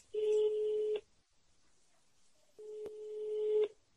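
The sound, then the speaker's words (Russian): Telephone ringback while a call is being placed: two long, steady, low buzzing tones, each about a second, separated by a pause, with a sharp click during the second tone; fairly faint. “Давай позвоним ей. Давай. Давай.”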